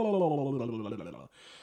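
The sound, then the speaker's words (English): A long held voiced tone from someone running out of breath trails off and weakens, then breaks into a short, noisy breath intake at the end. “I ran out of breath.”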